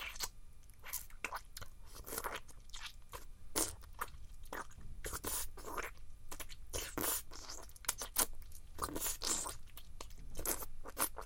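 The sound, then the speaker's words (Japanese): Crunching and sucking on a lollipop held in the mouth: many crisp, irregular crunches and wet clicks in a quiet, steady stream with no talk. “チュパを口の中に溜めるね。いただきます。”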